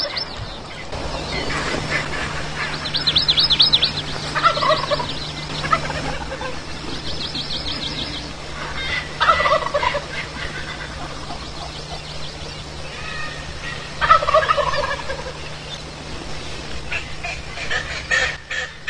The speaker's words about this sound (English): We roosted these birds, and we're in tight.